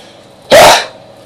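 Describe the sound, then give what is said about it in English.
A single loud, explosive human sneeze, one short forceful burst that rises suddenly and trails off quickly against a faint background hum. “Yeah, I apologise if I blow anybody's eardrums off. That's how I sneeze.”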